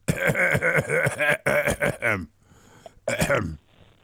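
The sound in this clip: A man clears his throat once in a brief, rough burst after a stretch of talking, with quiet breathy noises just before it.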